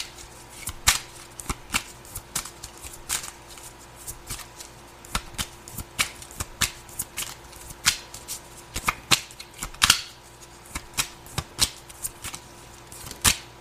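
Tarot cards being shuffled during a card reading, with many crisp riffling clicks and slaps in irregular bursts, fairly loud and steady throughout, with no talk.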